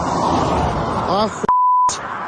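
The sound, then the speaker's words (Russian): A telephone ringback tone sounds once as a steady, clean beep lasting under half a second. Noisy background and a brief voice come before it, and the rumble returns after it. “Гудки? А? Гудки идут? Да, гудки идут.”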